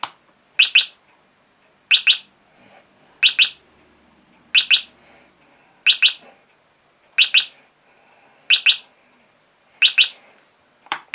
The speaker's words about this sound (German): Ich schalte wieder aus und schalte einmal die Schalter so, dass es zweimal zwitschert. Fast wie ein Spatz. Zweimal zwitschert es jetzt.